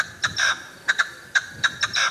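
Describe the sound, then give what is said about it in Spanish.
Partridge calls, played in a game of guessing animals by sound: a rhythmic run of short, sharp, shrill chirps in quick clusters, some notes longer than others, repeating at a steady moderate loudness. “Eso es una perdiz. Es una perdiz.”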